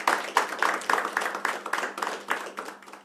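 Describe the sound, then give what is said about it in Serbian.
Tavern audience clapping to welcome a singer and her band: sharp, distinct individual claps at a quick, slightly uneven pace, fairly soft, with a low steady hum underneath. “Balkansku kraljicu zajedno sa svojim bendom koji ćemo počastiti naravno jednim velikim aplauzom.”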